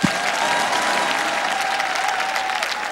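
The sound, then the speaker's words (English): Applause from an audience inside a temple, a dense, steady wash of many hands clapping that stays loud and even for the whole stretch without a break. “I give a wonderful clap for the...”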